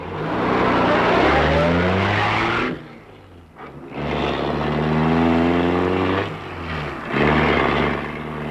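Car engine accelerating hard, a loud roaring drone that surges, drops away briefly, then climbs again and holds before another short dip near the end.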